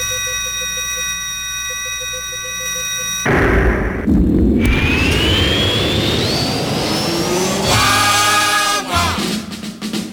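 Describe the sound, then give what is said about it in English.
Rocket blast-off sound effect: a steady electronic hum cuts abruptly into a loud, broad engine roar that keeps thundering, with a rising whine and bright ringing tones toward the end. “You ready to blast off? Yes, sir. Okay, let's go.”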